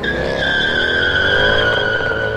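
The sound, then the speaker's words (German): Tires squeal as a black Mercedes speeds away, a loud, continuous high-pitched screech that holds steady over a rough engine roar. “Der ist jetzt mit einem Auto abgehauen. Ja, ein schwarzer Mercedes.”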